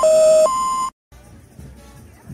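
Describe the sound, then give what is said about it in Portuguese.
A two-tone electronic beep from an answering machine before a message, a lower steady tone sliding into a higher one, then a short silence and a faint background hum. “Após o sinal, diga seu nome e a cidade de onde está falando.”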